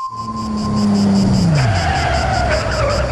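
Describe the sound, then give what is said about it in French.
A sports car arrives with its tires skidding and squealing loudly, while a steady engine tone slides down in pitch midway through a continuous three-second screech. “Il est arrivé en voiture de sport.”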